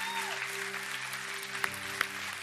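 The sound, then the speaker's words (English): A church audience applauds in a steady, continuous patter of many hands, with sustained tones held underneath and a couple of sharper claps standing out near the end. “Come on, let's give God a hand.”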